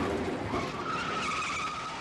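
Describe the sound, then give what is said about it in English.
Tires skidding and a car engine during the car chase in a gritty 1971 New York cop film, a sustained screeching squeal over engine roar that holds for the whole moment. “Gritty New York cops tracking a heroin smuggle. A feature film done in documentary style, rough, raw, real, no special effects. Quick cuts and that car chase.”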